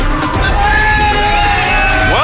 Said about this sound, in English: Oh, big crowd on hand here.